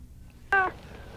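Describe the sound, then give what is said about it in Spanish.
Kitten meowing once, a short, clear, tonal mew that stands out sharply against an otherwise quiet background. “le dices a ese gatito que se haga para allá”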